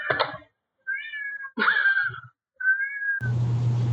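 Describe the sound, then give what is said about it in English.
A cat meows four times in drawn-out, fairly high calls separated by short pauses, with no voices. A steady low hum sets in after the last call. “I'm gonna murder this cat.”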